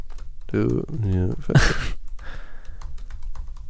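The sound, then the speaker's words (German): Notes being written down, heard as soft clicking and scratchy tapping that follows a short burst of talk and carries on faintly to the end. “Ich schreibe es mir auf, warte, was brauchst du?”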